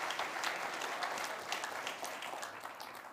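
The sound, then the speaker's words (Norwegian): Audience applause at an evening prayer conference in a church, dense and steady clapping throughout, easing slightly toward the end. “Kan vi gi han en applaus for det?”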